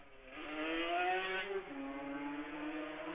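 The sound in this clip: A racing machine's engine roars past as one loud, steady drone, its pitch dipping slightly partway through before holding level again.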